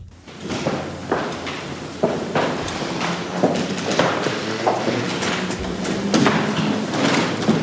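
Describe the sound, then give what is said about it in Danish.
Many footsteps of shoes on the palace floor in Oslo as a royal coffin is carried from a red salon to the palace chapel. The steps are irregular and overlapping, with steady shuffling and soft thuds and no talk. “Det her er lyden af sko. Kongelige sko, nærmere bestemt på slotsgulvet i Oslo,”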